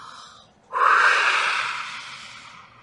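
A single forceful, hissing breath blown out by a person, imitating breath being breathed into a lifeless body made of dirt, bursts in abruptly and fades slowly over about two seconds.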